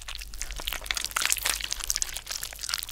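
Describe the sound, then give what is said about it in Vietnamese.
Eerie chewing sounds of a monster being eaten inside a cave, heard as a dense, continuous crackle of crunches and cracks at moderate loudness with no voices over it. “Sau đó, ở bên trong hang động vang lên âm thanh nhai nhút, nghe đến rợn cả người.”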